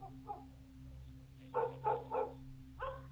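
A dog barks at a heavy ironwood gate, with several short, sharp barks clustered near the end and fainter yips earlier, all fairly quiet over a constant low hum.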